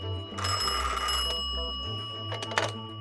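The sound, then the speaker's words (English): A telephone rings in two bright, rattling bell bursts, the first long and the second short, over a steady low tonal background. “phone rings”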